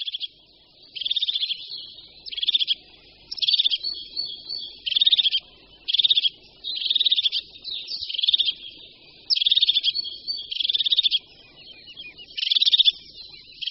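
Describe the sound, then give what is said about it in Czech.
A hawk-headed parrot calls in many harsh, high-pitched bursts that repeat at fairly regular intervals. Each burst is loud and clear with short gaps between them, and there are no voices. “se parukářky ozývají hodně často a téměř vždy ve spojitosti s nějakým vzrušením”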